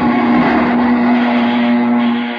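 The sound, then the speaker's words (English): A loud, steady engine drone from an aircraft in flight with damaged control cables, a constant low hum with a rough buzzing edge that holds evenly throughout and eases slightly at the end. “Shut off that engine, Sammy”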